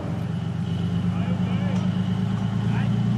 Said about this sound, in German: Mit dem Sound des Leoparden verlassen wir die Übung Trias 25.